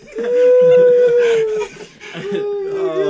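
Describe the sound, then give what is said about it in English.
A dog, an excitable one that came running over, lets out a drawn-out, wavering high howl that holds steady and then sags, followed after a brief dip by a second, shakier whine-like howl. “sorry, my dog. Sorry about my dog running over here. He's so kooky.”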